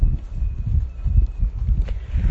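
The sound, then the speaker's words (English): Wind blows hard across the microphone, a loud, gusty low rumble that buffets and pulses unevenly throughout, with no voices. “Now suddenly this wind has caught up. You might not even be able to hear me.”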